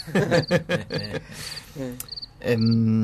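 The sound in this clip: Cricket chirping in short, high-pitched pulses that repeat steadily, with a voice and lower tones underneath.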